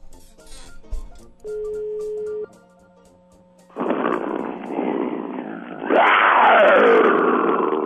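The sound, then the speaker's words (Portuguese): Engine roar that starts partway in as a rough, broad rumble and then swells into a louder, surging roar toward the end. “é o rugido de motor, Gilberto Barros.”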